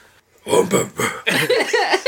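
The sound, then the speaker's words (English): A croaky, burp-like vocal sound from a person with a sore throat trying to make a scary noise. It comes as a few rough, throaty bursts that run into a longer, wavering, voiced groan. “That was perfect. Scary. That was kind of like a burp. That was even scarier.”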